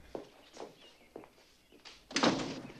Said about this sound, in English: He opens a French door and they go outside.